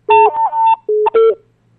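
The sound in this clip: Telephone dialing tones play as a caller connects: a few loud, steady electronic tones in short bursts, separated by brief gaps.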